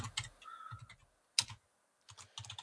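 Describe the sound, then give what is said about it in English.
Typing on a computer keyboard: quiet clusters of rapid key clicks separated by brief pauses, with one sharper, louder keystroke in the middle. “I can't talk and type at the same time.”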